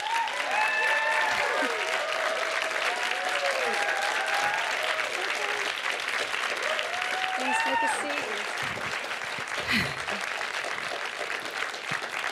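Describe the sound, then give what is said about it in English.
Rapturous applause from a live audience after a film screening as a guest takes the stage: a dense, sustained wash of clapping with whoops and cheers rising over it, easing slightly toward the end. “Everyone's just seen the film, of course. I think we've got rapturous applause there.”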